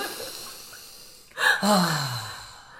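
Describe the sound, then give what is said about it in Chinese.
A single deep breath: a short, sharp inhale followed by a longer voiced sigh on the exhale that falls in pitch and fades out. “来，跟着我深呼吸。”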